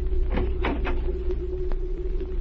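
A cabin door on a ship is opened below deck: a few soft knocks and rustling creaks come early, over a steady low hum that runs through the whole clip.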